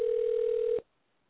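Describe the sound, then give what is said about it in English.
Telephone dial tone while dialing a call: one steady, loud, unbroken tone that holds for just under a second and then cuts off abruptly into silence. “we've been talking to Zane Mitchell, and we're dialing him right now.”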